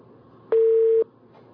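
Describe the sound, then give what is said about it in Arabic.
Telephone busy tone after a dropped call: one steady, mid-pitched beep lasting about half a second, sounding alone over faint background hiss. “انقطع اتصال أم طارق”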